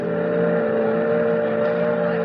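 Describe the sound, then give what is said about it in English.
A motorboat engine drones on a boat excursion out to the Statue of Liberty, a steady, even hum with strong low tones that holds at the same loudness throughout, with no voices. “Gee, it's nice riding out on the boat, ain't it, Grandpa?”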